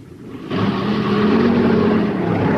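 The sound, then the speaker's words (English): A jeep engine pulls away. A continuous low rumble jumps louder after about half a second and then holds steady. “As the jeep pulls away, Kinney pulls himself up and crosses the road to his platoon”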